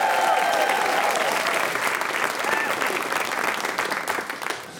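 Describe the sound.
Loud audience applause welcomes a guest onto a stage, a dense, sustained roar of clapping with some cheering voices mixed in, holding steady before tapering off slightly at the end.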